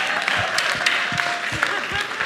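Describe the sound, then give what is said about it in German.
Applause from an audience, a dense, steady patter of clapping that keeps going while voices talk over it. “Applaus für das.”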